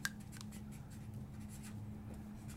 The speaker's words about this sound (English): I'm going to write relationship